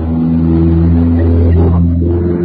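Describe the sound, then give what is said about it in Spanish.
A car passes outside a house, heard as a steady, loud, low engine rumble with a droning hum that holds throughout, and no talk. “Sí, acá en mi casa pasó un auto, sí.”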